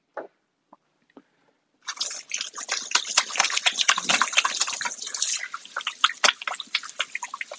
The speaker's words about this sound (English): just washing my hands real fast. Get that grease from the sausage off of them.